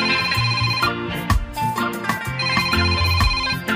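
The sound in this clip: An electronic telephone ringtone chimes with an incoming call to a radio call-in show, a continuous repeating melodic ring of layered tones that stays fairly loud throughout.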